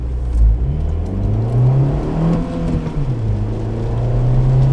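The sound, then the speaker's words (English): A car engine drones loudly as the vehicle accelerates hard during a torque steer test, its pitch climbing to a peak midway and then easing back down over a continuous low rumble. “So we're gonna do a torque steer test. Alright, go ahead. Which is to see how much the steering wheel turns when you accelerate.”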